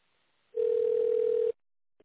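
A telephone ringback tone heard while waiting on hold for a company's reception line after an automated menu: one steady, even mid-pitched tone lasting about a second, alone, with near silence before and after.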